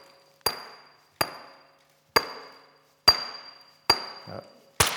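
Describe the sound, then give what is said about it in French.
Sharp stone-on-stone strikes of flint knapping as a series of flakes is struck off a core, each flake scar serving as the platform for the next blow; six crisp, ringing hits, each with a short fading tail. “je vais enlever une série d'éclats, je retourne la pièce de manière à chaque fois le négatif d'un éclat me sert de plan de frappe pour le suivant.”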